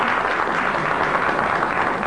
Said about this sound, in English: the volume of your applause will determine this